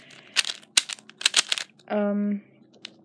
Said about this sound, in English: If you hear clicking in the background, that's because I am messing around with a Rubik's Cube.